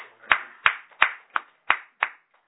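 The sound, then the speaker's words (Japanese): Clapping to honour a woman's 87th birthday at a gathering: six sharp, evenly spaced claps at a steady rhythm of about three every second, fairly faint and with no voices. “今日は佐々木さんの奥さんの道江さんが満87歳を迎えられましたので、盛大な拍手でお願い”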